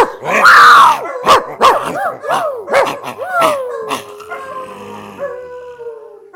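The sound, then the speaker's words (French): A human voice imitates a dog: a loud run of many sharp, yelping barks that ends in a long, drawn-out howl which slowly fades. “je porte plainte en aboyant, écoutez-moi.”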